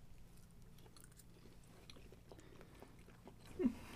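Faint chewing and biting as people taste a dish made with the Toskana-Brise seasoning, soft and low throughout, with one slightly louder crunchy bite near the end.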